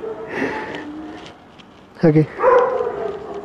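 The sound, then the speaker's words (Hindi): A dog gives a single short, sharp bark between stretches of a person talking. “Life is से हाय to my dog”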